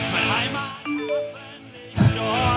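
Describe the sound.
Short message notification chime, a couple of clear ringing tones rising out of a busy mix of voices and background sound.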